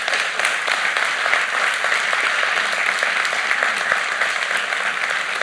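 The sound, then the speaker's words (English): A church audience applauds its worship and sound team with steady, dense clapping that holds at an even, loud level throughout. “So can we give it up for our worship and our sound people?”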